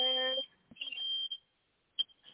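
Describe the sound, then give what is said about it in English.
A fire alarm goes off with a shrill, high electronic tone that sounds in short bursts separated by brief gaps. A lower, buzzy harmonic tone comes before it at the start. “Diva set off the fire alarm.”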